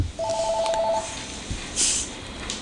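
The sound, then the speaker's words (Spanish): Telephone tones sound as a caller's line is taken: a quick run of short, evenly spaced electronic beeps, followed by faint line noise and a brief soft burst, with no voices. “Vamos a atender la llamada primero porque después no, ¿verdad?”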